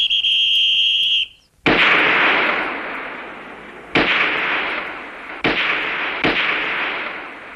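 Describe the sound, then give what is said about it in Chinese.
A carbine and a pistol fire four sharp shots at target practice. Each is a loud crack with a long fading tail, spaced unevenly, and a steady high-pitched tone comes before the first shot. “我和老总用卡宾枪，主席打手枪。”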